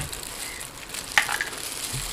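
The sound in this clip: Frying sizzle as oil is added to a hot pan, a steady, fairly faint hiss with a brief crackle partway through.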